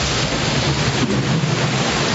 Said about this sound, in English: But it's only momentary calm, because all of a sudden our wave pulls itself off the shallow ocean floor, rises to a height of more than 100 feet, and watch out!